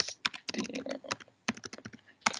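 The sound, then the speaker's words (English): Quick, irregular clicking of keys on a computer keyboard, typed in two bursts separated by a brief pause, with a few final keystrokes at the end. “I was almost going to type Spielberg then.”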